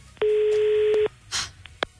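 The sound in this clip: A telephone number being dialed: a steady electronic tone holds for about a second, then a short rush of noise and a few small clicks, with no talking.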